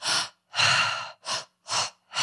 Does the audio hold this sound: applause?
no